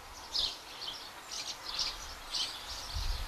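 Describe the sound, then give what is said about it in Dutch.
House sparrows chirping inside a large holly bush: faint, high-pitched chirps come in several short clusters over a low, soft background. “Ik sta hier naast een grote struik hulst en u hoort de mussen die daarin zitten.”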